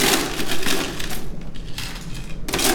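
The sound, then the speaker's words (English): Ice cubes tumble into a cocktail glass to top a cranberry drink, giving a crunchy, clattering rush of clinks and rattles that rises and settles in several loud bursts over a few seconds. “All right, we're gonna go ahead and just top with ice.”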